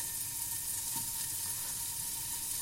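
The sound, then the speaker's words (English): Chorizo pieces fry in a hot pan with no added oil, giving a steady, fine crackling sizzle. The hiss stays even and fairly soft throughout, with no talk over it. “And I'm going to fry them. Now you don't need any oil with this because the chorizo has oil of its own.”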